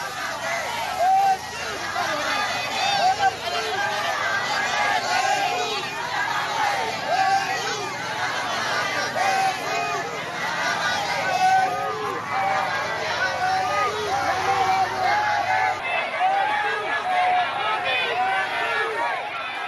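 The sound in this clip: Crowds lining the road from Naypyitaw airport welcome Aung San Suu Kyi on her way home, a dense, steady babble of many voices chattering and calling out throughout, with no pause.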